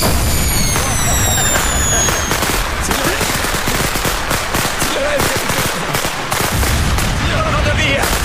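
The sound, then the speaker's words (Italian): Fireworks set off from a box full of them, a loud, dense barrage of sharp cracks and pops with thin high whistles over the first seconds, continuous throughout. “Questa eh, scatola è piena eh. di fuochi d'artifici, guarda.”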